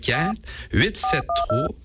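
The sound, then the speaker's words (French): Telephone keypad tones as a phone number is dialed: a few short, clipped electronic beeps in quick succession, overlapping a voice speaking. “On va l'appeler. On va utiliser le téléphone.”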